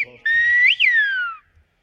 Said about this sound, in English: The Canary Islands have a song of their own, in a whistle carried on the wind. It's a language born long ago